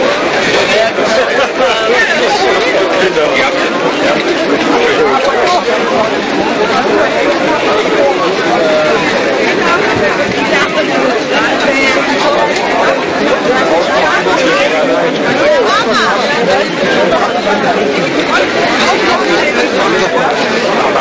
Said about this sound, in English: getting through the mainstream really is a push and shove. I'm going to go back down to the mainstream so you can hear how loud it gets.